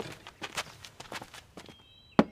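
Footsteps of a woman walking in while carrying a bowl of water: several soft, uneven steps, then one sharp knock followed by a brief thin ringing tone.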